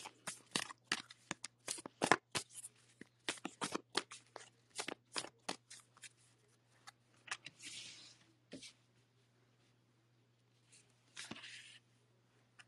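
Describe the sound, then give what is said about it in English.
Oracle cards handled and drawn from a deck: many crisp, papery flicks and rustles in irregular bursts, then quieter gaps and a final short flurry, over a faint steady hum. “So the second card I'm going to pick is the Oracle.”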